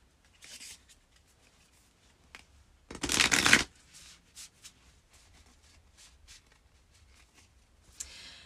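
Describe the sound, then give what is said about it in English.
Oracle cards are shuffled in a few soft rustling riffles. One louder, denser burst of riffling comes midway, with light ticks and slides between and a final brief riffle at the end. “Let's pull an oracle card for you, Pisces rising.”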